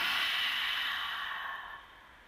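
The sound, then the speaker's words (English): A long, loud exhale during a deep-breathing exercise, a soft breathy rush of air that starts strong and slowly fades away over about two seconds. “Deep breath in, extending your belly, and a loud exhale, getting that air out.”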